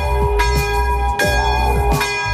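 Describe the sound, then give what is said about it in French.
A church bell tolls to call the faithful to gather, each strike ringing out into a long, humming resonance that hangs between the repeated blows. “La cloche appelle les fidèles au rassemblement.”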